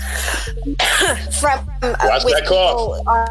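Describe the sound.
A person coughing, giving a few short, rough bursts mixed in with talking.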